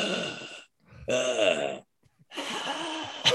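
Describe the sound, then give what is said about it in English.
A man's voice imitates a dying man's final breath after being stabbed in the neck: three voiced, groaning exhalations separated by short silences, strained and wavering. “I need a death noise. And I was like, what? It was like, you know, like after you've been stabbed in the neck, you know, your final breath.”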